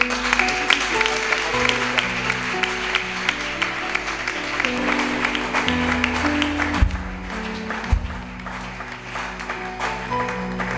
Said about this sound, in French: Est-ce que nous pouvons acclamer pour la gloire de Dieu? Je m'étonne par votre façon d'acclamer l'Éternel.